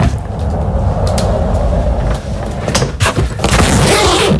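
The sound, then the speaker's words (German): A rolling suitcase rumbles steadily along on its wheels in a loud, continuous grinding roll, then a few sharper clicks and knocks come as it is opened. “Ja, das ist dein Rollkoffer. Du bist mit deinem Koffer entlang gerollt und hast ihn dann aufgemacht.”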